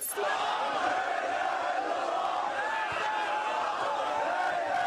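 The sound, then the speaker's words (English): A huge crowd roars and chants during citywide street demonstrations against President Mubarak in Alexandria, Egypt. The dense, unbroken wall of many shouting voices stays loud from start to finish. “Here's the sound of citywide demonstrations in the city of Alexandria.”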